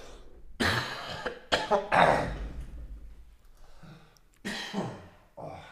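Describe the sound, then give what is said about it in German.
A dry, deep-sounding cough: a cluster of several harsh, raspy bursts, a quieter pause, then a couple more coughs near the end. “das ist ein trockener Husten, ist nicht gut, ey. Der sitzt tief.”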